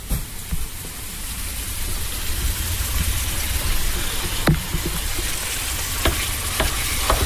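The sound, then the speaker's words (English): Minced meat frying and being stirred in a pan: a steady crackling sizzle runs throughout, with a few sharper clicks and scrapes from the stirring. “once you've got your mince in the pan, very important to give it a nice stir.”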